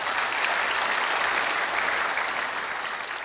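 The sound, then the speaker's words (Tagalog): Congregation applause at a church worship service, a steady, dense clapping that holds loud and even throughout, with no single voice standing out. “Palakpakan natin ang Diyos.”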